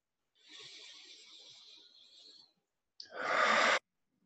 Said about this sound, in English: Let us take a deep breath together.